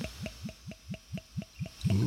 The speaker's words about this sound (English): And let's get this professional pour on. Tilt the glass a little bit.